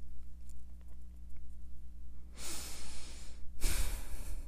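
A deep breath: two long, soft breathy rushes of air, one after the other, quiet over a low steady hum, with no talking.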